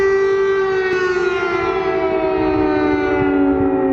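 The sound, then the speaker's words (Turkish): Air raid sirens wail over Kyiv during a missile and drone attack, a loud, sustained, rich-toned howl that slides slowly downward in pitch throughout. “Kent genelinde dakikalar içinde en az 10 patlama meydana gelirken sirenler saatlerce susmadı.”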